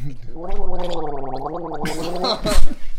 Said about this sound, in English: I'm going to gargle with this till I say the call letters right.